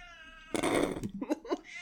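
A cat meowing: a drawn-out tonal meow opens, followed by a louder rough cry and a few short, choppy yowls.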